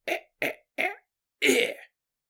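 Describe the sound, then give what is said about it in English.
A voice imitates a baby coughing a little: three short, evenly spaced coughs and then one longer, breathier cough, with no other sound between them. “Little baby just coughing a little bit.”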